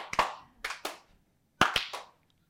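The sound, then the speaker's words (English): A single audience member claps in a few short, scattered groups of two or three, crisp and fairly quiet, with gaps of near-silence between them. “I got a clap on that.”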